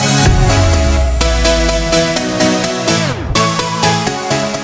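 An electronic dance track, chosen as the official song of the home ice hockey World Championship, plays with steady pulsing synth chords over deep bass, a downward sweeping drop and a brief break before the beat resumes.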